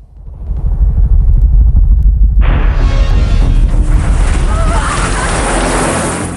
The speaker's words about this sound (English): As they reach the top, a police chopper appears over the brow of the hill.